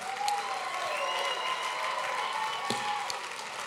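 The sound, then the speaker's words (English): A church audience claps to welcome new members as they return to their seats. The applause is dense and steady, a continuous rattle of many hands that holds an even volume throughout. “Give your new brothers and sisters a great hand clap as they go back to their seats. Come on, give them a big, big welcome.”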